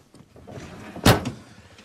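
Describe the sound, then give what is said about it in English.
A car door opens as someone gets in and sits behind the wheel. Faint shuffling is followed by one short, loud, dull thump and a quieter knock. “He opens the door and takes a seat behind the wheel.”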